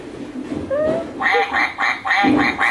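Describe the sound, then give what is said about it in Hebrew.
A duck quacks in a rapid series of loud, harsh, nasal calls, with a faint squeak just before the run begins. “ברווז. ברווז שוחה במים.”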